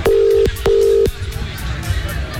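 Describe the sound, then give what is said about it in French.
Two steady, mid-pitched telephone line tones, each just under half a second, sound as a phone is dialed for a live call to a runner during a 10 km race. A softer noisy stretch follows. “Et là on va tenter d'avoir des nouvelles en direct, on l'appelle tout de suite.”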